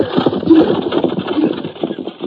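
Horses pulling an empty wagon downhill, a steady clatter of hooves and rolling wagon noise with a loose, rhythmic clip-clop running throughout at moderate loudness.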